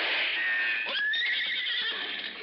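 Horse whinnying, the horse ridden up to a cliffside mining camp: one long, shrill, wavering neigh that stays loud and strong throughout, with a few brief breathy pulses mixed into it.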